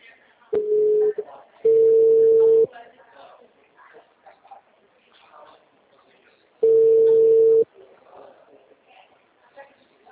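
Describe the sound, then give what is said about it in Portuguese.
Telephone line tones after a dropped phone call: three loud, steady, flat-pitched tone bursts, two close together and a third a few seconds later, with faint talk in the gaps. “A ligação caiu.”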